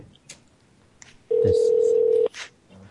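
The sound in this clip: Ringback tone of an outgoing phone call, heard as one steady, loud beep lasting about a second, with voices briefly before and after it.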